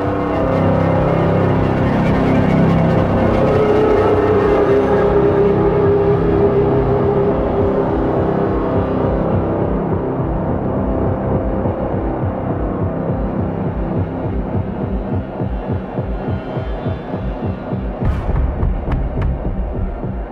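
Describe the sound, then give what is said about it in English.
A reversed viola plays a two-note motif inside dense, continuous layered music, holding a steady, full loudness throughout with a brief bright swell near the end. “That kind of two-note motif you're hearing, Rob told me, was it's actually reversed viola. I thought it was a synth for ages.”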